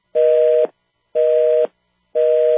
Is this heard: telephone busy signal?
yes